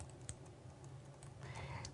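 Typing on a computer keyboard as someone notes down names: a continuous, fairly faint patter of many quick key clicks over a steady background hiss.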